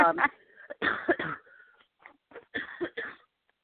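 A person has a coughing fit, with a few clusters of harsh, throaty coughs separated by short pauses, fairly quiet and with no other sound.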